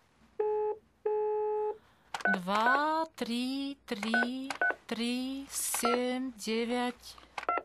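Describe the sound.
Two steady electronic telephone tones, each lasting about half a second, sound while a number is dialed on a call to a consulate. A voice then speaks over a quiet line.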